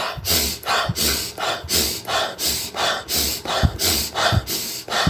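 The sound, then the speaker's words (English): Rapid hyperventilation breathing, with longer inhales and very short, automatic exhales repeating in a fast, steady rhythm. Many loud, airy breath cycles follow one another with no talk. “You see, longer inhales, very, very short exhales, automatic exhales.”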